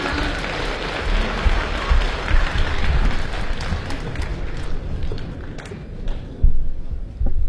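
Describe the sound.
Audience applause welcoming xiangsheng comedy performers onto the stage at a variety show, a dense, steady clapping that dips slightly toward the end before a few louder thumps.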